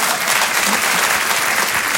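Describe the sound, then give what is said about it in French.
Audience applause, a continuous wash of many hands clapping that stays loud and even for the whole two seconds. “donc, on peut l'applaudir”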